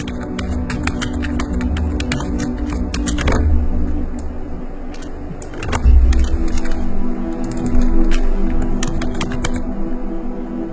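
Typing on a computer keyboard: rapid, irregular clicks and taps come in bursts over a steady background rumble, without pauses long enough to break the rhythm.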